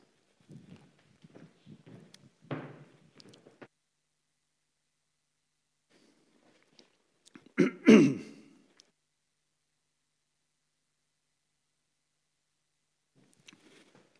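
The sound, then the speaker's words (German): A single sip of a drink: one brief, breathy slurp and exhale that stands out in a mostly quiet stretch, with a few faint soft rustles before it. “Ich muss mal einen Schluck trinken, sorry.”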